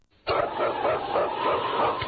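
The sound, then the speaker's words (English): A husky sled dog, the lead dog of a team, barks in a vintage radio drama. Harsh, noisy barking starts abruptly and carries on loudly to the end with no talk. “It's King, swiftest and strongest lead dog of the North Country”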